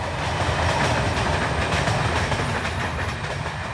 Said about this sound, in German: Hinter dem Wald rattert ein Zug in Richtung Norden vorbei.